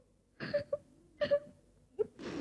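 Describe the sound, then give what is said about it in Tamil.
Crying from a person grieving a grandmother's death: a few short, strained whimpering sobs with breaks between them, then a breathy, shaky burst at the end. “ஏன் அழுற?”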